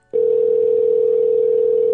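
A telephone dial tone sounds while a number is being called. It is one steady, loud tone at a single pitch that begins abruptly and holds unbroken to the end, with nothing else heard.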